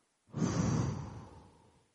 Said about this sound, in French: Et on va expirer.